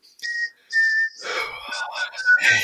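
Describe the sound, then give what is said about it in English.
A person whistles a short tune: a few clear, sustained high notes with brief gaps, followed by a busier stretch of voice and other sound. “you can whistle it too.”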